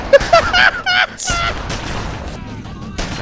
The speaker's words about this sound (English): You just fiddle with the slide and continue firing.